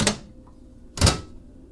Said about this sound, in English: close these doors.